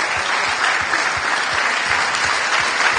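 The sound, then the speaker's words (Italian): Dense, sustained applause from an audience honouring a university rector: many hands clapping at a steady, full level throughout, with no voices standing out. “Fate un applauso al rettore”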